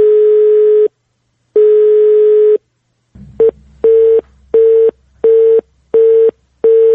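Telephone line tones from a recorded call attempt: two long, steady beeps, then a click and a quicker run of shorter, evenly spaced beeps at the same pitch, loud and clear with no talk.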